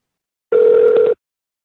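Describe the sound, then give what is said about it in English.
A single steady telephone tone, like a dial tone, sounds while a number is being redialed. It is one even, clear, mid-pitched tone with a bright overtone, lasting just over half a second and then cutting off abruptly with no talk over it. “Sorry, I had to go back and dial this number again.”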